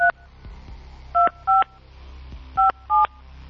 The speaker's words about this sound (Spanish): vamos a ver, le vamos a marcar al 55, 22, 83.